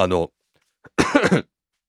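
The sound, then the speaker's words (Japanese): A person with a persistent cough: a short voiced sound opens, a tiny click follows after a pause, then a quick cluster of harsh, breathy coughs bursts out before silence returns. “話し始めるとねまたね咳が出るんですよね。”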